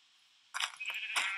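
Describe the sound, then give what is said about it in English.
Sheep bleating in a video game while the player punches them for wool: silence, then a couple of short, bright, wavering bleats. “Yeah, I see some sheep, so I'm just punching them to death to get some wool. There's, like, three sheep over here,”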